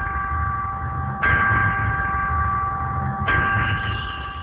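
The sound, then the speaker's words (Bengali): An electric bell rings to mark a break with a steady, buzzing, loud tone that lasts the whole time. It surges louder twice, as if pressed again, and has no speech over it. “আমরা আরো একটা বিরতির ঘন্টা শুনতে পেয়েছি”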